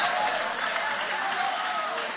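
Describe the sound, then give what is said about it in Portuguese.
A church audience applauds with hands raised during a worship service, giving a dense, steady burst of clapping at an even level throughout. “Levante a mão então e aplaude o nome dele.”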